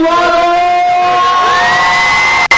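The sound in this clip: A crowd shout from the people of Tucumán during Independence Day festivities: a long, loud, massed vocal cry with strong tonal voices. The pitch jumps upward about halfway through, and the cry is sustained until an abrupt cut at the end.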